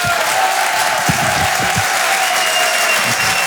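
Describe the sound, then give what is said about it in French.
An audience at a live comedy show applauds loudly with sustained, dense clapping and crowd noise, a steady wall of applause from start to finish. “Je vous demande de faire un maximum de bruit et de l'encourager.”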